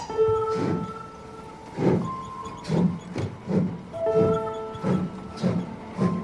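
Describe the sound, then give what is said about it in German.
Travelling train rolling toward Rennes, its wheels giving a rhythmic series of clattering bursts over a low rumble, with sustained whining tones running through several stretches. “Am nächsten Morgen nimmt Daniel den Zug nach Rennes.”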